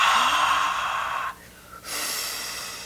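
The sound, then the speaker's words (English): A voice imitates a forced, hissing exhale, pushing air out in a steady breathy hiss that breaks off briefly partway through and then resumes. “Don't push the air out. Don't hiss it out. Some people like to go,”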